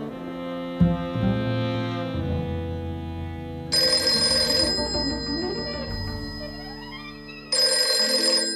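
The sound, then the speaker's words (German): A telephone rings in two long, bright bursts against a sustained tonal backdrop, with a quieter gap between the rings. “Nancy, Telefon.”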